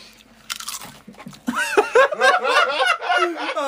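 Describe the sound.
Salty potato chips crunch as someone bites into them, starting with a few sharp, crisp snaps. Chewing continues under laughter and chatter from voices.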